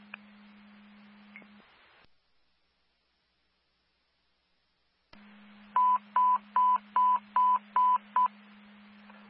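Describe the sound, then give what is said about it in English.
A fire alarm alert tone under test: seven short, evenly spaced beeps at one steady pitch. A low, constant hum comes before them, drops into silence, then returns under the beeps. “Fire alarm testing the alert tone.”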